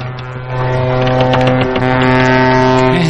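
A large ship sounds its horn as it approaches, a loud, sustained, low-pitched blast with a rich stack of harmonics that fills the whole clip without a break.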